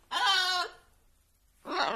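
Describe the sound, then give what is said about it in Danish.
A three-year-old grey African parrot calls twice: loud, raspy, bleat-like harmonic cries, the first longer, then a shorter second after a brief pause. “Det er Sorba. Hej, Sorba. Dit papegøje. Nå. Du er kommet hjem igen. Det var godt. Hva? Din flotte, grå, afrikanske, treårige papegøje,”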